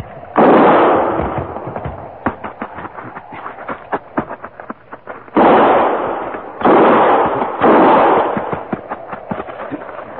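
Gunfire in an armed standoff: four heavy, booming blasts land at irregular intervals, scattered among many sharper, quicker cracks. No one speaks.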